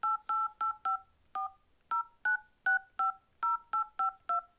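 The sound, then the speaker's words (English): A telephone number being dialed as a quick string of many short, clear two-tone keypad beeps, fairly evenly spaced with a few slightly longer gaps between them, heard alone without talk. “let me see if I better dial the number, I think, and see if I, get through”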